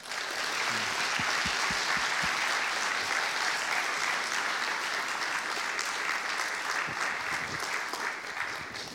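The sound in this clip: Applause from a church audience welcoming a preacher to the morning service: dense, sustained clapping from many hands, loud and even throughout with no letup.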